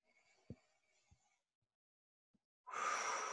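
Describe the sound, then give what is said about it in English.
A deep breath in and out at the start of a guided relaxation, with faint, soft breathing and a few light clicks, then a sudden loud, airy rush of breath at the end. “So eyes closed, take a deep breath.”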